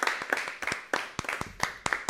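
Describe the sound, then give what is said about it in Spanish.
Applause from an audience responding to a strong call for a round of clapping: many sharp, uneven claps arrive in dense bursts, moderately loud and sustained throughout. “Un fuerte aplauso.”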